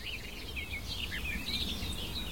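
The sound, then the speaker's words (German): Barred warbler calling while it flits back and forth nearby: quick, scratchy chirps and chattering notes that repeat in short bursts, faint over a low, steady rumble. “Das ist das eine, was uns die Sperrbargrasmücke, vor der wir hier die ganze Zeit stehen, die hektisch vor mir hin und her fliegt,”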